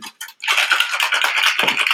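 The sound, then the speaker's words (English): Ice cubes clattering into a cocktail shaker while making Christmas cocktails: two brief rattles, then a dense, continuous bright clatter as the shaker is filled to the top. “I'm going to fill the ice all the way up to the top of the shaker”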